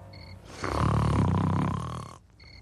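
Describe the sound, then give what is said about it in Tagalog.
A sleeping farmer lets out a single loud, rasping snore: one long, low, rumbling breath lasting about a second and a half that swells in and then fades, heard alone with no talk. “Ayun, at naghihilik pa.”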